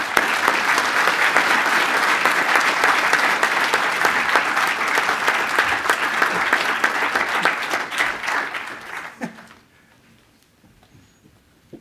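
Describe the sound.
Applause from an audience welcoming a lecturer, dense and steady clapping that holds for several seconds before thinning out and fading to near silence.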